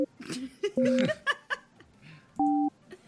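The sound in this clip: Two sustained electronic telephone tones from a call being placed, the first short and the second longer, sounding amid laughter, chuckles and voices.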